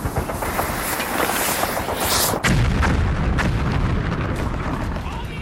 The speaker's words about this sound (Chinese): 行了，躲开！我要扔手榴弹了！